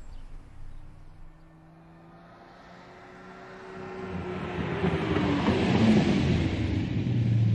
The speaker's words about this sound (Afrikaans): Jaag jy altyd so? Wat bedoel jy, dis mos 'n sportskar?